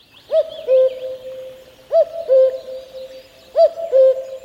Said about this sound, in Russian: Голос кукушки, наверное, все более-менее себе представляют, но послушайте.